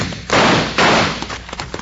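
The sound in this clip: Gunshots in a radio western drama: two dull, booming bursts about half a second apart, each with a short noisy tail, followed by fainter scattered rustling.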